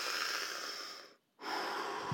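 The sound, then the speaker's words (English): A person takes a large breath through the mouth while recovering breath after exercise. A breathy, hissing rush of air runs steadily, drops to a brief silent pause midway, then resumes with another airy, moderately quiet breath. “So if I, rather than I can take a larger breath, and even if it's through the mouth,”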